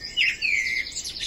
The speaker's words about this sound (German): hören Sie die Amsel?